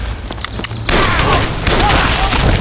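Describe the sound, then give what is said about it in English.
Gunshots ring out during an ambush on a band of masked, mounted holdup men: a few sharp separate cracks, then a loud, dense, continuous burst of gunfire. “Uncertain as to where the shots had come from, the survivors looked around in confusion.”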